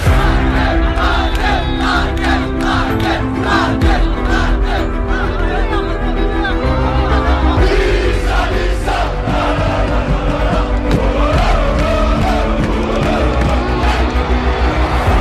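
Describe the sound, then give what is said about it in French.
Nice football supporters chant the name of Hatem Ben Arfa, a loud, dense crowd roaring in steady rhythmic unison throughout, with no pause in the massed voices. “Les supporters de Nice qui scandent le nom de Atem Ben Arfa”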